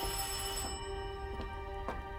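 A telephone rings early in the morning with a steady, bell-like ring of sustained, shimmering tones and a few brief clicks, heard alone without voices.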